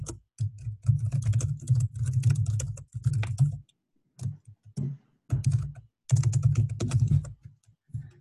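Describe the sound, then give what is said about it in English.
Typing on a computer keyboard to enter a name: rapid, dense key clatter in bursts, with short pauses and a few isolated taps between runs, and no talking. “Hold on, I have to type in my name here.”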